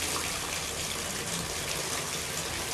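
Water runs at a house, a steady, dense rush and splash that stays loud and even throughout with no pauses and no voices.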